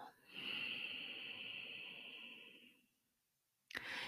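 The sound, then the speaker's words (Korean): A long, slow exhale during guided yoga breathing practice in a class, soft and breathy, lasting about two and a half seconds before fading into silence. The next breath begins abruptly just before the end. “다시 한번 호흡을 길게 들여 마시고, 내쉬고,”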